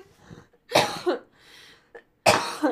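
Phlegmy coughing in two harsh fits of a few bursts each, separated by a short pause and a brief throat sound, loud against near silence.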